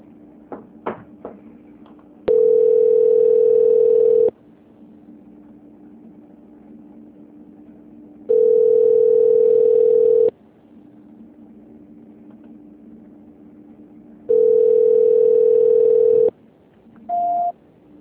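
During a phone call transfer, three long, steady electronic tones of about two seconds each repeat at even intervals over a low hum, followed by one short, higher beep, with a few faint clicks at the start.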